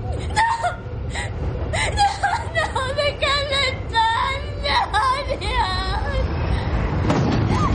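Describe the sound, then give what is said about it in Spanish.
A metro train enters a station platform: a loud, continuous rumble runs throughout, with many high, wavering squealing tones layered over it. “Pone imágenes del andén. El metro entra en la estación.”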